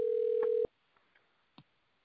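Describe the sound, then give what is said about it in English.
Phone ringing during a church service: one steady mid-pitched electronic tone lasts under a second and cuts off abruptly, leaving near silence with a few faint knocks. “Is that your phone ringing, Kendall”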